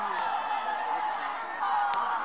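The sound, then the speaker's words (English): A crowd of Bengali civilians cheers at the Dhaka racecourse during a troop surrender, a steady din of many voices under a man speaking. “I think perhaps it was wrong to allow all the civilians in here, but they're in, cheering.”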